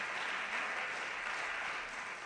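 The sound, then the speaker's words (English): A round of applause follows a live vocal arrangement of a classic ballad. The soft, even clapping forms a faint, continuous wash with no distinct individual claps. “This is a really, really cool arrangement, a beautiful rendition of the classic tune, Send in the Clowns. Let's give them a round of applause.”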